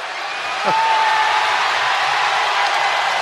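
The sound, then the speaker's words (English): A hockey arena crowd at a 2004 San Jose Sharks versus St. Louis Blues game reacts as a player steps into the penalty box. A dull murmur swells suddenly into a sustained roar, with a whistle or whoop cutting through. “Crowd responding to him stepping into the penalty box, but he wouldn't go in there unless he had a penalty.”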